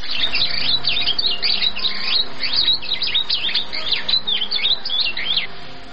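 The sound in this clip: Songbird chirping in quick, bright, high-pitched bursts, many chirps repeating steadily throughout, with no other sound standing out.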